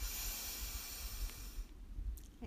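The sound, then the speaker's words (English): A faint, long breathy hiss from a deep breath during a guided exercise, holding steady for about a second and a half before trailing off into near silence. “Ah. Breathe in and out. Deep breath in”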